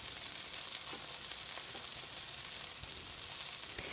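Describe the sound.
Chicken pieces fry in a pan for spicy orange sesame chicken, giving a steady, dense sizzle with scattered small pops and crackles throughout and no voices.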